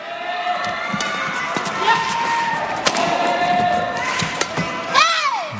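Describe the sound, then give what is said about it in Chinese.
A badminton shuttlecock struck on a serve during a match, heard as a few sharp, crisp thwacks against steady crowd noise and high squeaking tones. “刘胜书发球”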